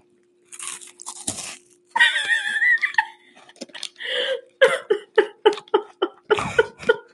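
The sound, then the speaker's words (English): A chocolate nut candy bar is bitten and chewed close up: a loud crunching bite, a brief muffled murmur, then a long run of rhythmic, crisp chewing crunches. “do the full bite. This is a bar nut candy bar.”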